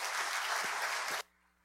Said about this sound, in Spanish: Ayúdame a recibirlo con un aplauso, el pastor Gustavo Valencia.